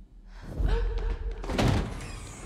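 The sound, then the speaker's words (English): A door slams shut, forced closed by someone's powers in a dramatic scene, landing as a heavy low thud with a second loud impact after it, and a voice underneath. “He uses his powers to slam the door, and he won't let her leave.”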